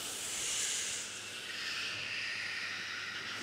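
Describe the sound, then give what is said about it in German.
Choir singers breathe in together during a voice-training exercise with a vocal coach, a soft, airy hiss that is held steadily for several seconds. “Trainieren mit einer Stimmbildnerin. Und das Kinn rollt über den Brustkorb. Und einatmen.”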